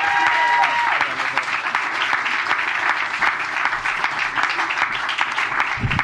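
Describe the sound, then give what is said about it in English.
An audience at a stand-up comedy show applauds as the next comic comes to the stage. A voice trails off at the start, then a thick, even roar of clapping carries on for several seconds. “Okay, round of applause for your next comic coming to stage, the very hilarious Mr. Jason Traeger!”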